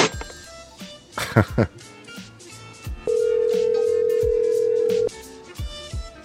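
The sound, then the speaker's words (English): A telephone tone sounds as one steady, mid-pitched hum lasting about two seconds. It is preceded by a stretch of music with people talking over it. “Oh, someone's calling.”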